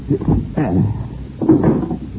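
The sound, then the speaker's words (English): A trap door is opened with two loud, creaking, scraping bursts a second apart, and no talk in between. “All right, open up the trap door. I'll drop him down in there.”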